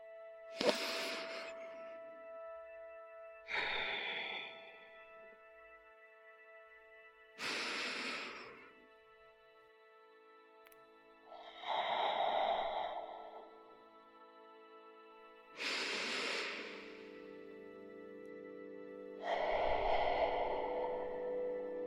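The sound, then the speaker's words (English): Deep, slow breathing during a calming exercise: six quiet, drawn-out breaths spaced a few seconds apart, with a faint steady tone beneath them. “Close your eyes. Go, close your eyes and take a few deep, slow breaths.”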